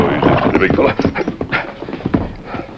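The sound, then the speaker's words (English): Horse hooves clip-clop as a rider comes up on horseback, a few scattered hoof strikes in a dense, busy mix of other sound that runs throughout. “Tonto was watching from a hill when the Lone Ranger rode up to join him.”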